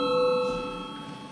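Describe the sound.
A bell rings to call a vote in a parliamentary session: one sustained, bright ringing tone that holds briefly and then fades away, with no voices.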